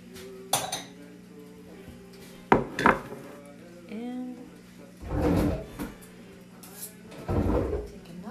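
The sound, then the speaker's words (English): Crockery and cutlery clatter as a small bowl is taken out in a home kitchen: a few separate bursts of bright clinks and knocks, with quieter handling noise between them. “So I'm gonna take a little bowl.”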